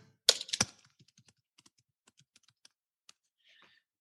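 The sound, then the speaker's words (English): Typing on a computer keyboard: a loud, quick burst of keystrokes at the start, then scattered single key clicks spaced out with pauses, with no talk. “Okay, I'll just type one in. Okay, that's it. I'll type it right here.”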